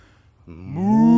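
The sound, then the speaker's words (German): A person imitates a cow's moo while exhaling, giving one low, drawn-out moo that swells from quiet to loud and rises slightly in pitch over about a second. “Und dann ausatmen. Und zwar in Sprache einer Kuh.”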